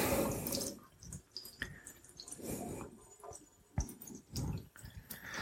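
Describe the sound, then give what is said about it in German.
Raw chicken pieces rinsed under running tap water in a kitchen sink to wash away small bone splinters, with irregular splashing, dripping and wet squishing that swell and fade as the pieces are handled. “So, jetzt werde ich die Stücke nochmal abwaschen. Dass da irgendwelche kleinen Knochensplitter oder so dann weggehen.”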